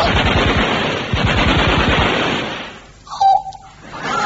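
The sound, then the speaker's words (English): A Westminster submachine gun fires one rapid, rattling burst for about two seconds. The burst then cuts off, leaving a brief, fainter noise as it dies away. “Yes, next time a nosy old busybody comes in and fouls up your housework, try a Westminster submachine gun.”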